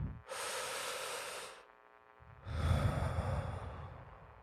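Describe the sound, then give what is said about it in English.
A single deep breath: a long, breathy inhale of about a second, a short quiet pause, then a longer and louder exhale. No talk. “let's take a deep breath.”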